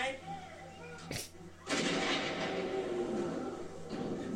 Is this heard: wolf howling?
no